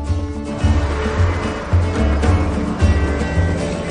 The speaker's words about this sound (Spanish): Suben al vehículo. Anochece mientras conducen.